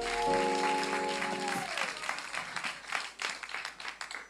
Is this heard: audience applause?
yes